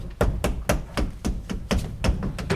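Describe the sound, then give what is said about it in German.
Rapid knocking on the back wall of a wardrobe, a steady run of hollow, sharp raps in quick, even succession, moderately loud and without talk. “klopfen Sie die Rückwand des Schrankes ab hier”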